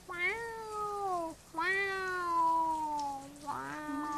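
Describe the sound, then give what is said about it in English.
A person imitates a cat meowing to be let inside out of the rain, producing three clear, drawn-out meows whose pitch slides downward, the last one short and cut off at the end. “I don't know if cats would like the rain or not. I know my cat Princess doesn't. She stands at the door and goes,”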